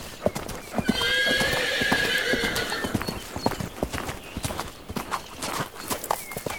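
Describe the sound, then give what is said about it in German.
A war horse, a knight's steed for tournaments and combat, neighs in a loud, wavering whinny lasting about two seconds. Many sharp hoof clops ring out in an uneven rhythm throughout, continuing after the neigh fades. “Und als drittes hat der Ritter das Streitross, also ein besonderes Pferd für Turniere und Kämpfe.”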